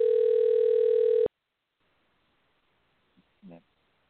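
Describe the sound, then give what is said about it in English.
A telephone dial tone from a call being placed, a steady buzzing tone that holds for just over a second and then cuts off abruptly, followed by silence and a couple of faint, brief sounds. “So the number's dialing.”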